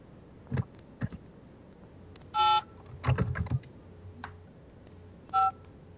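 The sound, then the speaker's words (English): Telephone keypad dialing tones: a few short, steady electronic beeps separated by pauses, with soft clicks and taps in between, fairly quiet overall. “I'm sorry. I'm dialing.”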